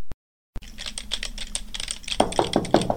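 Rapid typing on a computer keyboard as an email is written: many quick, irregular key clicks that grow somewhat louder toward the end, with no voices.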